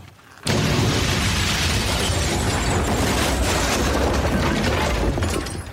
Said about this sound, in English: The house fell down and went boom.